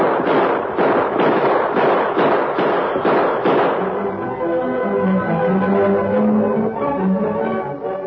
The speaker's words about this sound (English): Gun him down, Tar. Come on, fellow. You don't get me. Shoot him, Tar.